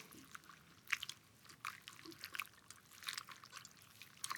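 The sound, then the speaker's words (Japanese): A towel is dipped in hot water with a few drops of oil added, giving faint, scattered splashes and drips in irregular bursts that come and go. “このオイルをお湯の中に数滴垂らします。タオルをお湯に浸したら、”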